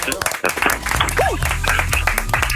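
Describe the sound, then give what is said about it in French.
Applause in a radio studio during a morning show, clapping mixed with people talking and calling out over it, fairly loud and busy throughout. “Allez, hop, ça s'applaudit. Bravo.”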